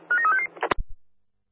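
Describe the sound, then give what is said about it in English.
Telephone dialing tones for a phone call beep in a quick run of several short tones, followed by a few sharp clicks and a low thump that fades away. “Could you give me a phone call, please? Calling now, CSA Underground out.”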